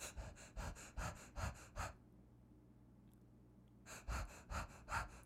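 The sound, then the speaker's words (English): A human voice imitates Cheyne-Stokes breathing before death: a run of quick, rasping breaths, then a silent pause of about two seconds, then another run of rapid, even breaths. “It's basically the breathing pattern that precedes the death rattle before you do a full exhale and your lungs empty and you die.”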